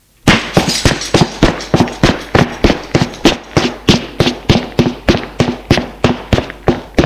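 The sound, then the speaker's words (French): Footsteps descend wooden stairs from a dark, damp corridor. Many sharp, evenly spaced knocks keep a steady walking rhythm with no voices. “Il suit un couloir sombre qui sent l'humidité. Et descend des escaliers de bois.”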